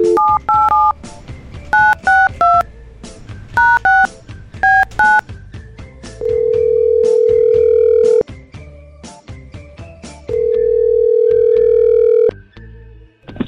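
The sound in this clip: A telephone call is placed: a quick run of touch-tone keypad beeps sounds first. A steady ringback tone follows twice, each time as a long, even burst with a quiet gap between.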